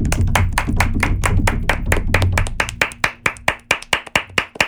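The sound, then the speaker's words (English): People clap in a church clap. Fast, dense clapping over a low murmur gives way to sharper, separate claps in a quick, fairly even rhythm. “come on, church clap. You better clap for yourself because if nobody claps for you, amen, you better clap for yourself.”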